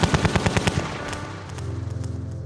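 Automatic gunfire riddles a man with bullets: a loud burst of sharp, evenly spaced shots, then a faster, softer rattling string of rapid shots to the end, with no voices.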